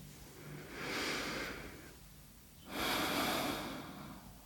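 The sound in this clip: One deep breath, drawn and released slowly as two soft, airy swells with a quieter pause between them, and no talking.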